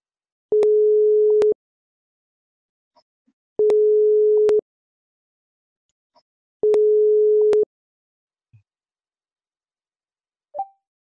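Telephone ringing tone on a call, heard as three evenly spaced, one-second steady tones separated by gaps of about two seconds, with a few faint clicks in the silences and no talk.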